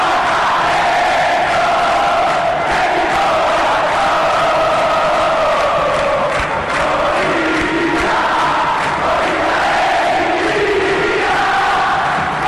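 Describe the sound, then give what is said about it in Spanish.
A football crowd roars in celebration of an Olimpia goal against Libertad, the scorer's 41st for the club. The dense, loud mass of voices holds steady throughout with no pauses, and sung or chanted tones run through the roar. “Así el festejo ante Libertad.”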